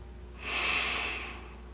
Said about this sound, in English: like to invite you to breathe in and out through your nose.